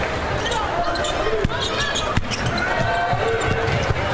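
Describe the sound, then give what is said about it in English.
A basketball is dribbled on the court during a women's college game, with a few sharp bounces cutting through steady crowd noise. Two hits stand out more clearly than the rest. “drives into the front court with a dribble”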